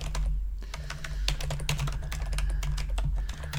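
Typing on a computer keyboard to search for Amazon Prime Video produces many rapid, irregular key clicks in a steady stream over a low constant hum.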